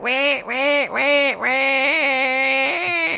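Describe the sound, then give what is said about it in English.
A parrot's call from a video game: loud, harsh, nasal squawks, three short calls followed by one long, drawn-out cry. “And these parrots have a very... kind of actually annoying bird call.”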